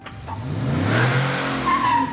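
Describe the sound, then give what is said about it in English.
A car revs and pulls away, its engine note climbing as it accelerates, with a brief high tire squeal near the end; loud and without talk. “he just drove away”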